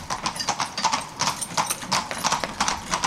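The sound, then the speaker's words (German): Horse hooves clip-clop steadily as a horse-drawn carriage moves across the car-free island of Hiddensee. The hoofbeats are loud, even and many, with no other sound over them. “Doch damals wie heute erwartet den Gast ein typisches Geräusch der Insel, das Pferdegetrappel.”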